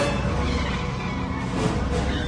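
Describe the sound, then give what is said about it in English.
A small car races through rain-swept streets in a chase after a large, powerful SUV. Its engine and road noise form a steady, loud roar that holds without a break for the whole moment. “Dave goes after Ian's big, powerful vehicle in his nifty small one, like a mouse chasing a cat. Come on! Dave races along the rain-swept streets.”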